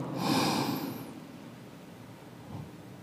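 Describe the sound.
One deep breath is taken during a guided breathing exercise, a loud, airy rush that fades into soft, steady breath noise.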